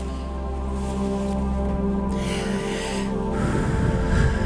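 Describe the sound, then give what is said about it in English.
Slow, deep breaths in and out during a guided relaxation, soft and airy, under sustained calm music. “Inhale, exhale. Just a nice inhale and exhale for a second.”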